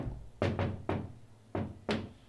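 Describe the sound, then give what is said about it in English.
Five firm knocks on an open office door, a quick group of three followed by two more, each a dull, solid thud standing alone against quiet. “a knock on the open door. We gave it the office. This is a knock on the door.”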